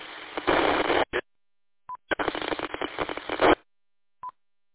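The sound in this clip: Radio repeater transmissions come through as bursts of band-limited hiss and static, with short, high electronic beeps after them, including one final beep once the channel goes quiet; silent gaps separate the bursts.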